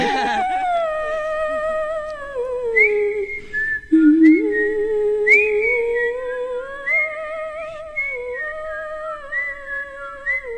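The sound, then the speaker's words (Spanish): A person whistling a wandering, melodic tune: clear sustained tones that slide up and down in pitch with a few brief breaks, loud and unaccompanied for about ten seconds, with no talk. “No es cierto, sí silbamos.”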